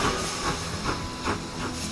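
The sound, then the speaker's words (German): A steam train departing from a station, with steady rhythmic chuffing puffs over continuous hissing steam, each puff evenly spaced and of moderate loudness. “Eine Durchsage für Gleis 1. Es fährt ab der Kinderexpress Richtung Alles, was uns Spaß macht Podcast.”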